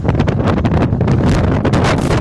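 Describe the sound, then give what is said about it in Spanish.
Loud, steady wind buffeting the microphone on a cloudy, windy day in Guayihuayca, a dense gusty roar with rushing, rustling surges and no voices. “Está nubladito, corre viento en Guayihuayca.”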